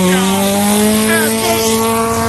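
Race car number 36 pulls away at the start of a timed run, its engine holding a loud, steady, buzzing tone that climbs slightly in pitch as it accelerates.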